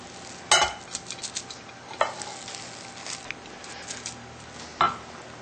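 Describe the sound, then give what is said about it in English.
A spoon presses and spreads cooked millet across the bottom of a baking pan, soft scraping and patting with a few sharper clinks of metal on the pan, alone and fairly quiet. “Now we're going to take 2/3 of the millet that's cooked here and press it into the bottom of the pan.”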